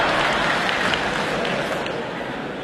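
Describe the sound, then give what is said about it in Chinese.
Audience applause during a stage comedy performance: dense, steady clapping from many hands, holding an even level and easing off slightly toward the end. “您看这鼓掌的同志们都深受其害”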